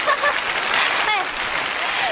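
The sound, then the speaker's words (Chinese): Audience applause welcoming a guest: a dense, steady wash of clapping from many hands runs throughout, with a voice heard faintly over it. “大家掌声欢迎一下郭老师啊！”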